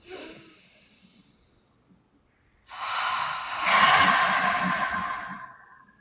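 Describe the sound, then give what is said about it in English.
A slow, deep breath is taken during a guided tapping meditation. After a faint breath at the start and a short quiet spell, a long airy inhale swells into a louder, hissing exhale that fades out. “when you're done, take another deep breath”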